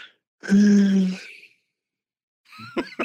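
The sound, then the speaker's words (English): A breathy, voiced exhale like a low sigh from a guitarist resting his chin on his guitar in a studio. It lasts about a second and is followed, after a silent pause, by a brief burst of other sound. “he would put his chin down on his guitar. And as he breathed out...”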